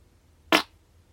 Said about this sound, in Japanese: 結構たくさん食べてガスも溜まったと思うのでおなら出したいと思います。